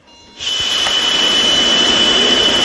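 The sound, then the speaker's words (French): Someone blows into a mandatory breathalyzer on a coach: a loud, airy rush starts abruptly and holds steady, with a thin, high, constant tone running through it. “Et effectivement, on a l'éthylotest qui est obligatoire, où je vais devoir souffler dedans.”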